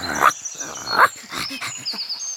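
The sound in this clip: A dog barks and growls. Two loud, sharp barks stand out, with rougher, lower growling sounds between and after them.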